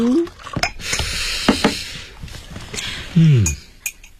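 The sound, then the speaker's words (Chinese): A cup of instant coffee is made with freshly boiled water, with a metal spoon clinking sharply against the cup a few times among soft splashing and dripping sounds. “嗯我给你冲杯咖啡。那开水是我刚从门房拿来的。”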